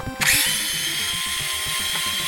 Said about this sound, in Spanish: Ahora veréis, cuando quite este tornillo y ese de ahí, las placas son idénticas.